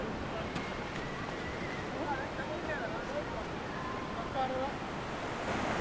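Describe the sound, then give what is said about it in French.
Faint, steady surf washes along Yof Tongor beach, where large fishing pirogues used for netting mackerel sit on the sand, with a constant rushing wash of waves and some wind buffeting the microphone. “À côté, il y a des grosses pirogues. C'est eux qui ont des grosses filets, qui attrapent les maquereaux et tout ça. Donc, c'est ça, quoi. Nous sommes ici à la plage de Yof Tongor.”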